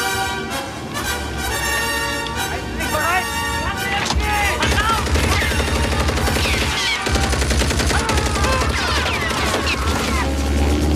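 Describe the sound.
A turret machine gun fires from an aircraft at soldiers on a runway. Its loud, rapid bursts run continuously and are dense with other loud sound throughout.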